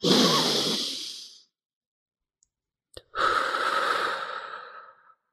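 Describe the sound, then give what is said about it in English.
A long, deep breath: a breathy inhale of over a second, a brief silence, then a slow, drawn-out exhale of about two seconds. “let's take a deep breath together now. And I have them do it with me and I do a long one.”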